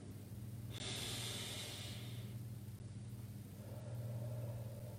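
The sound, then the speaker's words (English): Slow breathing during a pause for stillness before morning prayer: an airy, hissing breath followed later by a softer, lower breath, all over a steady low hum. “as we enter prayer now, we pause to be still, to breathe slowly.”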